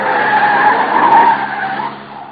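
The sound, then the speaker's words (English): A car skids through a corner on the handbrake, its tyres letting out a loud, sustained squeal that holds for about two seconds before easing off slightly at the end. “Hang on, corner on the handbrake makes things kind of sudden.”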